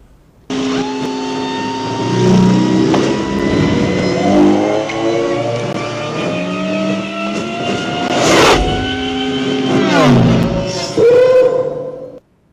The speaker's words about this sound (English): And we are going to go head on the speeder bike to the forum post of the week.